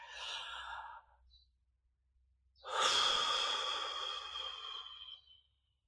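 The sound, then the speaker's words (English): A person takes a deep breath during a guided breathing exercise: a soft inhale, a short pause, then a longer, louder, breathy exhale that fades out, with no talk. “just take a deep breath. Here, I'll do it with you. Okay, in.”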